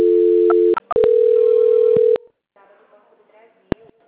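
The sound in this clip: Telephone line tones during a call transfer: a steady tone, a brief click-broken gap, then a second long steady tone, followed by faint line noise and one sharp click.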